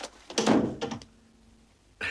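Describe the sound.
A door is pulled shut after a package is taken in, giving a cluster of solid thumps and rattles, then a single short knock a moment later, with quiet in between.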